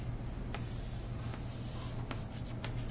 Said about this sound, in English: And the way that I can show that is, once again, to draw this net,